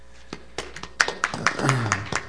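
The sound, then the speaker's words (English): A few sharp, uneven hand claps from a church audience welcoming a young visitor, scattered rather than full applause, with a voice and murmur running underneath. “Well, let's give a round of applause for Cameron.”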